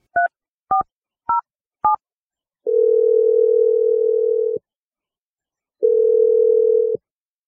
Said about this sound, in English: I'm going to dial his number right now.